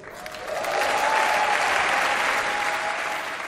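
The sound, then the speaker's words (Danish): Applause in the German Bundestag in Berlin for the newly elected chancellor, a dense clapping that starts lighter, swells after half a second into a loud, sustained wash, then tapers slightly at the end. “Ja, så udover den øh, applaus og lykønskning, der lød til den tyske forbund, nye tyske forbundskansler i øh, forbundsdagen i Berlin”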